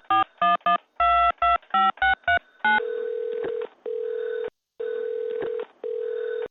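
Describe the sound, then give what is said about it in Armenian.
Touch-tone beeps as a taxi service's phone number is dialed: a rapid run of short, bright tones, then longer ringing tones repeating on the line. “Արմենը հավաքում է ծառայության համարը։”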